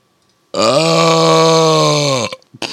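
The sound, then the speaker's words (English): A loud, drawn-out burp with a deep, steady, croaking tone holds for nearly two seconds before cutting off, followed by a few brief softer noises. “Guess this burp.”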